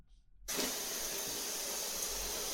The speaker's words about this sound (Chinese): 去冲水去，来，开花洒，